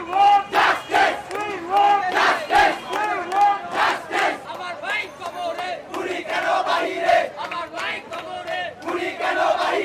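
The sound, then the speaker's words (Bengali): Student protesters on a city road in Bangladesh chant slogans, the massed voices rising in loud, rhythmic bursts of shouting that repeat without pause. “এ সময় স্লোগানে স্লোগানে মুখর ছিল রাজপথ।”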